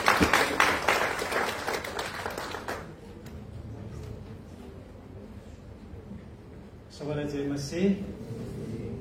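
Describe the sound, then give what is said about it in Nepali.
Applause at a church service for a pastor about to preach, a short burst of clapping from the audience that gives way to a voice speaking. “हामी ताली बजाउने उहाँको लागि”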